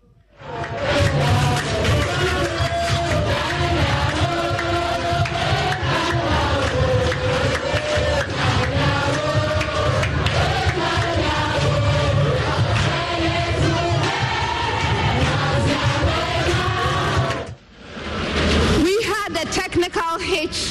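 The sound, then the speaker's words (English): Excited students chant jama songs in an auditorium at a school quiz competition. The massed voices are loud and continuous, drop away briefly near the end, then surge back. “They are very excited. I can see that they're, you know, doing some jama. If we can just get a sound up a bit for that jama for our audience on the radio.”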